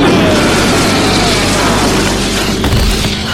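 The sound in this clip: A gunshot sound effect from an audio drama: a loud, booming blast that does not die away but holds as a dense, rumbling roar through the whole clip.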